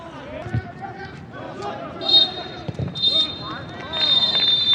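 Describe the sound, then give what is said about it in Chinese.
A referee's whistle ends a youth U17 football match: a short shrill blast is followed by longer sustained blasts, all heard under steady commentary. “裁判员鸣响了全场结束的哨音”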